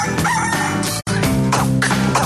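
A rooster crows loudly over dense, sustained background sound, its call briefly broken by a short gap partway through.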